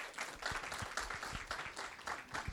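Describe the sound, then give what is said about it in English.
An audience applauds to welcome a speaker: many claps blend into steady, moderately loud clapping throughout. “I want to put your hands together. Let's welcome Kathy Campbell.”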